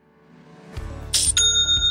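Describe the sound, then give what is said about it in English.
Online store sale notification chime: a low rumble builds, then bright bell-like strikes ring out, leaving sustained high tones. “That sound is music to my ears. It's the sound of another sale on Shopify,”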